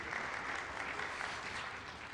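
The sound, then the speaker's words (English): Applause from an audience for a band after a march at a morning church service, a steady, dense clapping that holds at an even level throughout. “It's okay to applaud the band this morning for that wonderful march.”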